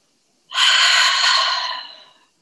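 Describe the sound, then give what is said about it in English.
A deep breath: one long, loud, airy rush of breath that swells quickly, holds briefly, then tapers away, heard alone with no talk. “And take a deep breath in. Big exhale.”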